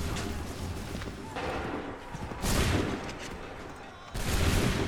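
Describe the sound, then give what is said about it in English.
A musket volley fired on command erupts as a broad, crackling blast, followed by a second loud burst a moment later, both rising over a continuous low rumbling background. “Make ready! Fire now!”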